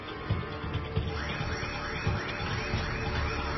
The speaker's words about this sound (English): That's the fire alarm.